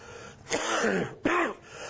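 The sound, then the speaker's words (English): Two short, hoarse coughs in quick succession, separated by a brief pause, moderately loud and with no talk around them. “And I apologize for my coughing up front. I'll do the best I can here, but having a real struggle with that.”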